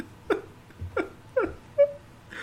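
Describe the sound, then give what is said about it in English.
Sobbing: three short, strained cries with a wavering pitch, spaced about half a second apart, fairly faint against a quiet background. “There's a pause, after which sobbing can be heard.”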